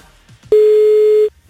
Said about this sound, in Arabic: عم نتصل هلأ بالرابح الثاني. خلينا نشوف مين حيكون رابح الثاني معنا. يا رب يرد على التليفون.